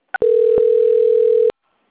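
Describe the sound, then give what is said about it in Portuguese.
Telephone tone during a call transfer: a short blip followed by a steady, even, mid-pitched tone held for just over a second, then silence. “Só aguardar em linha que eu vou transferir aqui.”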